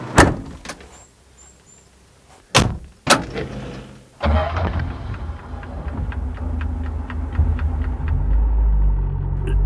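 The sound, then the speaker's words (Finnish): Heavy clunks of a hatch being shut, a few sharp knocks followed by a steady low rumble with faint, regular ticking running through it. “Nyt paitapa luukun kiinni. Nyt mä suljen. Sormet pois, ettei jää väliä.”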